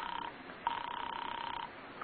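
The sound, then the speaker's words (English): A telephone rings as a caller dials an apartment: a short burst of rapid, trilling electric ringing, then a longer burst of about a second. Both are faint and heard alone. “You hurry to the phone and dial. And as you do, you notice your hand is trembling. You call Ferguson's office. There's no answer. Then you ring his apartment.”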